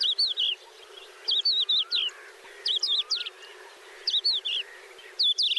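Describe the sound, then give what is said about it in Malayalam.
Crested lark song, a species whose song blends phrases of other birds' songs: five bursts of quick, high, warbling whistles and trills, each separated by a short pause. “വാനമ്പാടിയുടെ പാട്ട് വളരെ പ്രത്യേകതകൾ ഉള്ളതാണ്. ഇത് ഒരിക്കൽ കേട്ടവർ മറക്കില്ല. നേർരേഖയിൽ എന്നതുപോലെ സരളമായ സംഗീതമല്ല കൊമ്പൻ വാനമ്പാടികൾ പൊഴിക്കാറുള്ളത്.”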